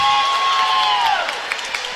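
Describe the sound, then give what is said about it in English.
Gothenburg volleyball fans clap in an arena as their team serves at set point, steady crowd noise with a few sharp claps scattered through the second half. “Swede faithful clapping, and it's a serve into the net.”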